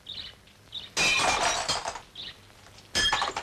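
Window glass shatters in two loud crashing bursts of breaking and tinkling shards, the second cut off at the end, with faint bird chirps in the quieter gaps.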